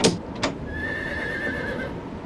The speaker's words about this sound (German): Ich sage Ihnen, dieses Pferd ist bösartig.